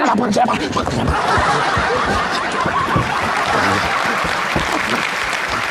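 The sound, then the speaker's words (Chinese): Audience applause greets two performers at a live Chinese stage show. Continuous clapping is mixed with chuckles and scattered laughter from the crowd at a steady, moderately loud level. “对，谢谢大家的掌声，你们掌声，我俩真有劲儿”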